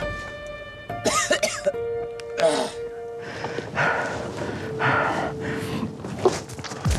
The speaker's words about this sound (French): Supporter des fumées toxiques qui ruinent les yeux, brûlent la gorge et enflamment les poumons.